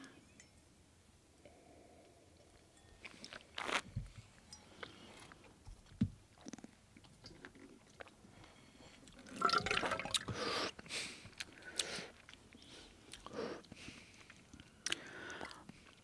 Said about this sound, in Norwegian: Skal vi ta nummer eh, to? Ja. Smake på den. Da smaker vi.